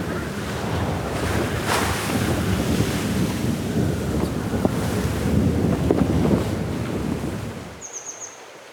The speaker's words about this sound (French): un voyage en mer du Nord.